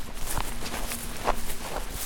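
Footsteps walk through rows of apple trees on a field at a fruit-growing research station. A few steady, moderately loud steps land over a constant outdoor background, with no talking.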